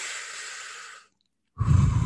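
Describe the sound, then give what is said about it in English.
A recorded breathing cue plays: a long, soft, airy breath fades out, then after a short silence a heavier, fuller breath begins. “we have like some jazz music for cooking. And so it's jazz music, but it's just somebody breathing in a cue.”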